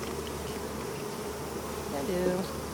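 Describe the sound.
Honeybees buzz at an opened beehive as a frame is lifted out, a steady, dense hum that swells briefly with a louder, higher buzz before settling back.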